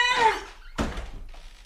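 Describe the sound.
A door is shut behind someone: a brief squeak gives way to a single solid thunk, followed by a faint rattling tail.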